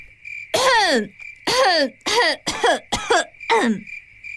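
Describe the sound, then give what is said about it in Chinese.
A woman coughing loudly and deliberately to clear her throat: six harsh, voiced coughs in an uneven sequence over a steady, thin, high-pitched chirring drone. “红娘往西厢方向看了一眼，提高嗓子咳了起来”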